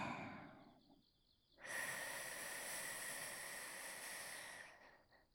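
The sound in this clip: A person breathing slowly out and in: a long, loud, airy breath of about three seconds follows a softer, quieter stretch, with no talking.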